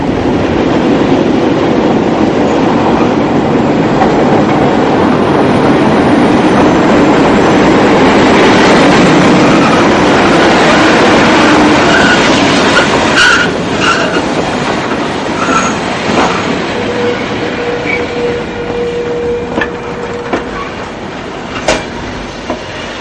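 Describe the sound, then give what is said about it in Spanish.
A diesel train pulls into the station at Zafra and stops at the central platform. A loud, steady rolling rumble eases off slightly, then high brake squeals and a few sharp metallic clanks ring out near the end. “Un tren a gasoil llega a la estación de Zafra y se detiene en el andén central.”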